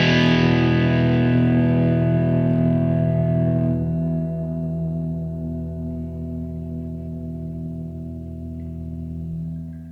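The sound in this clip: A distorted electric guitar chord played on the humbucker pickup through a small Marshall tube combo amp rings out with gritty sustain, its brightness dropping off after a few seconds as it slowly fades, with no voices.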